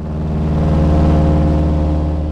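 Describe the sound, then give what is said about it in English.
The engine of a tiny seaplane in flight makes a loud, continuous low drone. The steady hum swells slightly in the middle, with no voices. “It's not a comfortable ride on this tiny seaplane to get to the Great Bear Rainforest, but it's worth it.”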